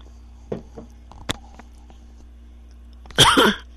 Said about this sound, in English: I have to have a drink here just a sec.